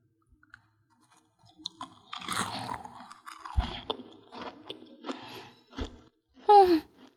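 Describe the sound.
Crunching and chewing of a chocolate snack: irregular bursts of crisp crackling and soft mouth noises, alone, ending with a brief voiced murmur.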